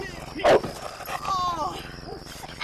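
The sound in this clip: A dog barks and yips sharply amid a commotion, with a loud burst early on and further whining cries beneath agitated human voices.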